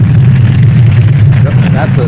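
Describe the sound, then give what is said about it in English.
A nuclear bomb explosion sound effect: a loud, sustained low rumble and roar throughout, with a voice briefly audible near the end. “That's a nuclear bomb. They didn't have nuclear bombs back in those days, but it was the same effect.”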